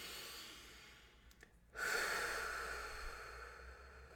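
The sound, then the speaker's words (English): A deep breath in and out during a guided breathing exercise: a soft, faint inhale, a brief pause, then a stronger airy exhale that slowly fades. “Let's take one big deep breath in and out. Let's do one more together for good measure. Big deep breath in.”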